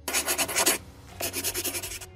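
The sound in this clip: Scratchy strokes of a pen writing on paper, a quick rhythmic run of rubbing strokes, then a brief pause before a second run of similar scratching. No voices.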